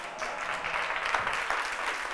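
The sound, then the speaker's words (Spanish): An audience applauding after a conference talk, many hands clapping in a dense, even wash that stays fairly faint for about two seconds, with no talk. “Está muy bien, porque así me habéis aplaudido 2 veces.”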